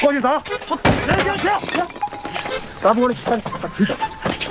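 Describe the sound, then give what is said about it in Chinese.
Glass smashing comes through as a sharp crashing burst amid loud, repeated shouting from several voices chanting over it. “砸玻璃砸玻璃砸玻璃砸往外砸 砸不准了再我再砸一下我再砸一下”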